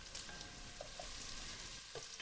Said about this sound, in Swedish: Det fräser på här.